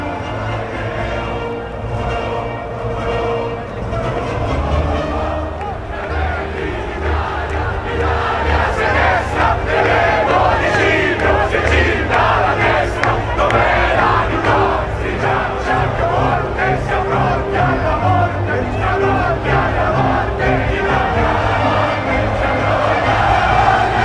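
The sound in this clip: The Tifosi crowd roars at Monza as Charles Leclerc wins the Italian Grand Prix for Ferrari. The huge crowd keeps up a loud, sustained roar with chanting and cheering for the whole stretch.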